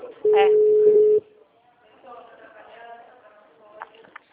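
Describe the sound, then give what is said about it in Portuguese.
A telephone ringback tone sounds while a call is placed: one loud, flat, steady beep lasting about a second. Faint talk follows it. “Tô ligando pra Marta.”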